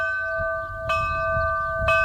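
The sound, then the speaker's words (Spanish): Bell chime announcing a solar eclipse in Lerín, with a higher and a lower bell: a steady ringing tone, renewed by two bright strikes about a second apart. “consta de sonidos de dos campanas, una más aguda y otra más grave, y tiene tres melodías diferentes.”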